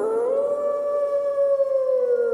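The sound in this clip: A wolf gives a single long, loud howl, a clear sustained tone that rises briefly at the start, holds steady, then dips slightly at the end.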